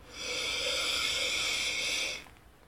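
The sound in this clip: A deep breath drawn in through the nose during a guided breathing exercise: a single steady airy hiss of about two seconds that swells in and then cuts off, with no talk over it.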